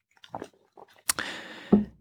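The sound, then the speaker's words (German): Someone takes a sip of tea, heard as faint, soft mouth noises, then a sharp click, a brief slurp and a low gulp near the end. “ich nehme einen Schluck Tee, Vorsätze und so, weniger Kaffee”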